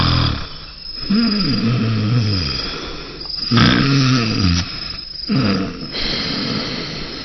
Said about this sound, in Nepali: ल हेर, ढल्किन पाएको छैन, घुर्न थाल्नुभयो है।